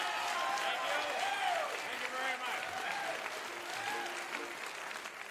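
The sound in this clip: Audience applause welcoming comedian Steve Martin onto the stage at the Boarding House: dense, sustained clapping from a large crowd, with whoops and cheers rising over it throughout.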